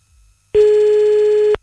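A telephone ringback tone on a call: a single steady, mid-pitched beep lasting about one second, heard alone and clean before it cuts off.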